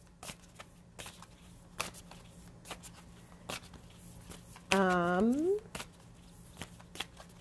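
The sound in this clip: A deck of oracle cards is shuffled and handled slowly: a quiet run of soft, scattered clicks and taps. Partway through, a brief hummed voice sound rises in pitch.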